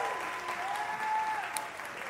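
Steady applause from a church audience on Missions Sunday welcomes the missions director to the platform, a dense, even clatter of many hands throughout.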